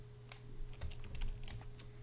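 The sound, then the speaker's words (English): Code is typed on a computer keyboard in soft, quick keystrokes that form a faint, irregular patter over a low steady hum. “and now here we're going to type the word parse, int, and then in parentheses we are going to type input 1.”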